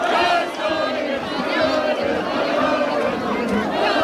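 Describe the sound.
A crowd celebrates Spain's football semifinal victory with loud, continuous cheering, shouting and chatter that stays at a steady level throughout.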